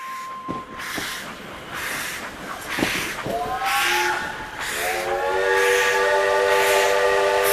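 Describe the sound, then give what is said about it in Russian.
A steam locomotive whistle sounds at a crowded train station, opening with bursts of hissing noise before a sustained, multi-toned shriek takes over and grows louder toward the end. “Он начался резким гудком паровоза, таким неожиданным, что я даже испугался.”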